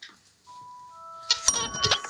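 An electronic quiz-show gong rings out as sustained chime-like tones that overlap and layer, then give way to a burst of louder, noisy commotion.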